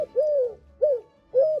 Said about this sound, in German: Ja, das ist eine Türkentaube.